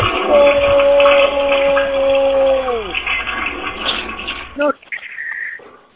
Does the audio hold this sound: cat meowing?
no